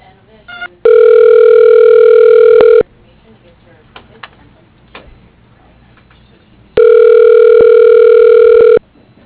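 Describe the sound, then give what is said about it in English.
Ringback tone on a business phone line while a call is transferred: two loud, steady rings of about two seconds each, separated by a pause of roughly four seconds filled with faint clicks. “Thank you for calling. Wait while I transfer your call.”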